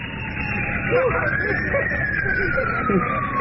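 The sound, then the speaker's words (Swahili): Ambulance siren on its way to the central government hospital in Yaoundé, a continuous wail whose pitch climbs and then slowly sinks over a steady bed of traffic rumble. “Gari la wagonjwa linakwenda kwenye hospitali kuu ya serikali mjini Yaounde”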